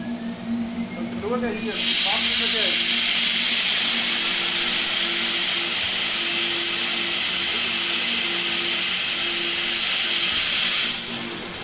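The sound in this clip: A suction loader pulling coffee beans up into a roaster's hopper: a loud, steady rushing hiss starts after about two seconds and runs evenly for roughly nine seconds before cutting off, over a low machine hum.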